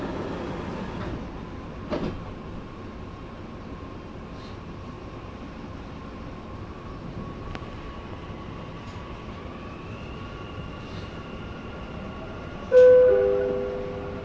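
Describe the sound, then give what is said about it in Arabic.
Dubai Metro train carriage in motion, a steady low rumble and hum with a tone that rises partway through, then a sudden, louder electronic chime of several bright notes near the end. “الأبواب تغلق. Doors closing.”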